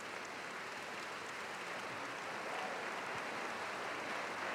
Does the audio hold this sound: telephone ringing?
no